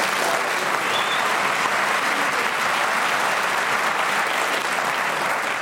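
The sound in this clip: Studio audience of a panel show applauding to welcome the first team: loud, dense and even clapping that holds steady throughout without a break, with no talk over it.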